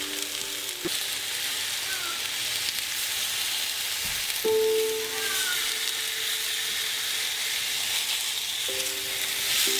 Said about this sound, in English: Oh yeah, look at that. Good sear.